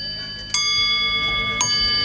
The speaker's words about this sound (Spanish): Y de ese sonido de campanas a uno que podría sonar digital